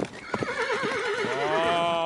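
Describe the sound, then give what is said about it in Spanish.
Restless horses, kept in for days without being taken out, give a loud, long, wavering whinny that climbs into bright, shaking high tones, with a few sharp hoof clatters near the start. “Maldita sea, probes caballos.”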